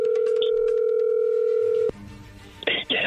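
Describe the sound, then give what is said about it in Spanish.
A telephone dialing out to place a call: a steady dial tone holds for about two seconds and cuts off, then quieter line noise and a few short bursts of tones follow near the end. “ahí se está marcando.”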